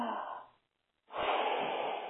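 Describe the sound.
A deep breath drawn in and then blown out during a guided relaxation exercise: two soft, airy, breathy rushes separated by a brief silent pause, the second one longer.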